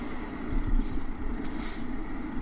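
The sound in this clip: A car engine in a driving video game as the vehicle pulls into a hotel car park, a low steady rumble with two brief hissing bursts over it.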